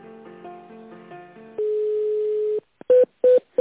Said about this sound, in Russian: Я вас переключу.